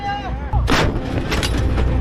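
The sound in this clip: A manually loaded artillery piece fires once during a military crew firing drill, a single loud, sharp blast followed by a long, rumbling tail.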